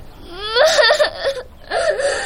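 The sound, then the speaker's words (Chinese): A child cries in high, wailing whimpers. A long, rising sob comes first, then after a brief pause a shorter second wail, both loud and strained. “不给买就哭啊？”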